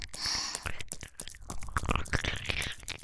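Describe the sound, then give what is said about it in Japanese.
Wet ear-licking sounds, close and loud: an uneven stream of moist smacks, slurps and small clicks in quick bursts, with no talk. “こんなに美味しい耳、舐めなきゃむしろ失礼だよね。”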